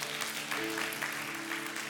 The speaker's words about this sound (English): Yeah, we clap for that.